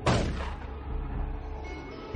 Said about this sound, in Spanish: De noche, un policía dispara desde un coche patrulla.